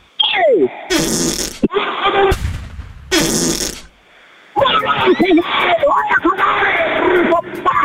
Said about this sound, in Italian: Ha sentito che bomba che mi è uscita dal culo?